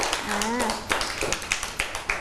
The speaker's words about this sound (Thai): ปรบมือให้กับพี่แม็กหน่อย